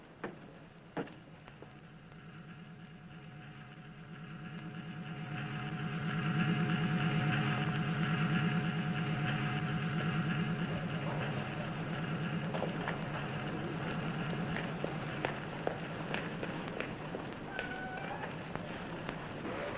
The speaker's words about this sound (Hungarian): Milyen jó, hogy újabban erre jár a busz.